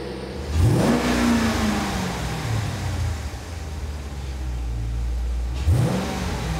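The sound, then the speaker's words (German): Car engine revving hard: two sharp throttle blips send the pitch sweeping up and falling back, with a steady rumbling idle in between, loud and without talk. “Ey, gib Gummi, lass klingen. Gib mal Gas.”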